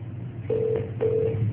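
A telephone ring tone sounds during a phone call: two long, steady, mid-pitched electronic tones separated by a short gap, over a low background hum.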